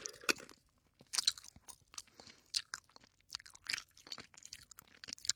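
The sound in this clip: Wet, sticky chewing of a pineapple-flavoured soft chewy candy. Many irregular mouth bursts and squishes come one after another, fairly quiet and with no talking.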